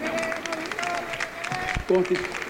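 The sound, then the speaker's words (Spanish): Applause for a comrade guest at a political meeting of community communicators, a busy patter of many hands clapping steadily beneath a voice talking over it, with a brief louder burst near the end. “Un fuerte aplauso para nuestra camarada Victoria Mata,”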